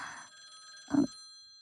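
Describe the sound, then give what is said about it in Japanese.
A telephone rings faintly in two short bursts of bright, trilling bell tone separated by a pause, with no speech. “何よ、こんな時間に電話とか。この状態で出るの？”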